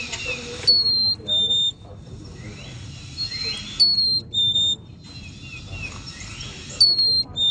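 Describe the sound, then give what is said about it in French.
A black-capped chickadee calls with clear, high, pure whistled notes that come in repeating pairs and recur several times over a steady background hiss. “Ça, oui, c'est une belle petite mésange.”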